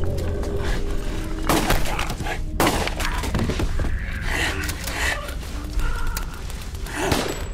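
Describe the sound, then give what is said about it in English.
Shotgun and pistol gunfire during a violent struggle, with a few sharp blasts cutting through a dense, loud wash of noise that never lets up. “I fired the shotgun until I had nothing left. Emptied my pistol”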